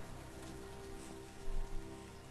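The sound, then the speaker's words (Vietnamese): Heavy rain pours down in a steady downpour, a dense, continuous hiss of water striking surfaces with no breaks and no voices. “Cơn mưa xối xả kéo dài khoảng 2 giờ đồng hồ kết thúc.”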